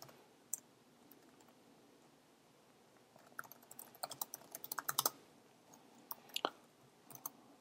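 Typing code in Xcode on a computer keyboard: a few scattered clicks, then a quick run of many keystrokes, then a few more taps, all crisp and fairly faint.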